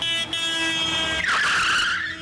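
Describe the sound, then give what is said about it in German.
A large dark blue delivery van speeds out of a gateway, its engine roaring loudly throughout, with a harsh hissing, screeching burst midway like skidding tires. “Ein großer, dunkelblauer Lieferwagen kommt in irrem Tempo aus einer Torausfahrt geschossen.”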